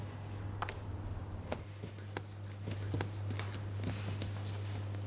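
Sourdough slapped and pushed onto a floured work table while kneading: several dull, irregular thuds, faint, over a steady low hum.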